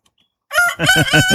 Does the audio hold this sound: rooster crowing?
yes